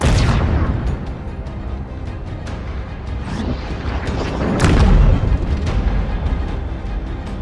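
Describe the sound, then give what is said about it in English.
Roar of a large unguided rocket launched from a ship in a video game: a loud, sustained, rumbling blast that swells a little toward the middle and carries on to the end. “Unlike the missiles, the Mac Round 101 is an unguided projectile, so the firing solution has to be perfectly aligned to hit. A large rocket is launched.”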